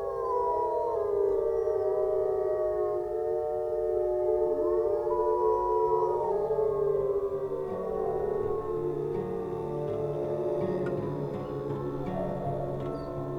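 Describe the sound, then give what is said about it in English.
Wolves howling to reunite a pack that split up during a hunt: several long, overlapping howls layered into a steady chorus, with pitches gliding and wavering throughout, continuous and fairly loud. “one of the wolves wandered off and sort of got lost, broke away from the pack, so it's helping a pack reunite, because they split up when they hunt, right?”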